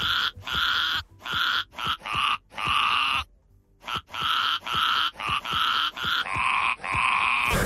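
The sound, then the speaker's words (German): A ram bleating in a meadow: many short, harsh, buzzy bleats follow one another in a fairly steady rhythm, broken by a brief silent pause midway. “Streusel ist der Schafsbock von Julia Schomburg aus Eppstein in Südhessen. So klingt er auf der Weide und so klingt er bei uns im Radio.”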